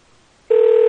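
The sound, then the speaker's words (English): A steady telephone tone on a call being placed to the UK cuts in abruptly halfway through and holds at one even, mid-low pitch with a faint higher overtone, loud and alone after near-silence. “We're calling the UK again.”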